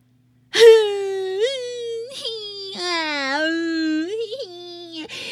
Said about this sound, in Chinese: 呀，全都在哭。